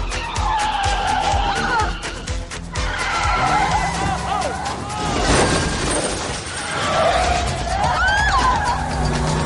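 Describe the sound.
A car's tires squeal and skid loudly as it swings around a corner, with a steady roar of road and engine noise beneath the rising and falling screech.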